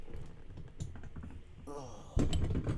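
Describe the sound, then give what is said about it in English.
Clicks, taps and rattles as a recording setup is slowly broken down and packed away. The handling noises are light and irregular, and a heavier knock near the end starts a louder, busier stretch of clatter. “As I'm very slowly breaking down my whole entire set. That's what you're really hearing right now.”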